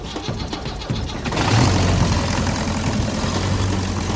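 An improvised engine bodged onto a homemade iron boat starts up and runs, turning a propeller. After about a second of quieter clatter it catches, then settles into a loud, steady, rough drone that holds to the end.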